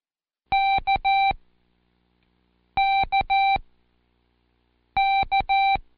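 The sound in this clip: Morse code letter K keyed three times: each a long-short-long group of steady, bright electronic beeps, with clear pauses between the groups and no voices.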